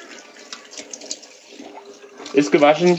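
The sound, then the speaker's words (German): Running tap water pours over a bell pepper being washed in a kitchen, a steady soft hiss and splash, with a voice speaking briefly at the end. “Okay, Paprika holen. Paprika? Achso, Paprika, ja. Waschen. Eine, ne? Ja, eine. Waschen.”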